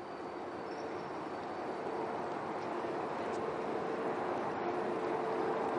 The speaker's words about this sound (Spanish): Se sube a un convoy con un cartel en la puerta donde se lee Atlántico Expreso, La Coruña, Madrid Príncipe Pío.